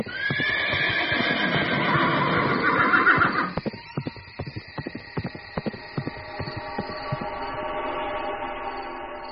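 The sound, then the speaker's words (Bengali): Horse spurred into a gallop by its rider: a loud, drawn-out whinny, then a rapid run of many sharp hoofbeats. “কথা শেষ করে সূর্যনারায়ণ ঘোড়া ছুটিয়ে দিল।”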